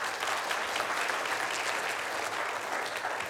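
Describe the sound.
An audience applauds as a speaker is welcomed back to the stage: a steady, even wash of many hands clapping at constant loudness throughout, with no talk over it.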